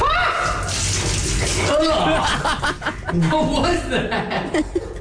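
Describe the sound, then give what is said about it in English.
Cold liquid splashing after a missed toss, a quick wet slosh mixed with laughter and chatter from several people. “You can hear all the liquid. Oh, I missed. You missed completely.”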